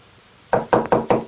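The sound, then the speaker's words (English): Four evenly spaced knocks land on a door at the end of a shadowy hallway, each one sharp and hollow after a moment of near silence. “then walks down a shadowy hallway to another door. He hesitates, swallowing hard, then knocks.”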